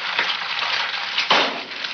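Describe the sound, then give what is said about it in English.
An egg frying in a frying pan gives a steady, bright crackling sizzle throughout, with a sharper surge of spatter partway through. “you may remember this PSA involving an egg and a frying pan.”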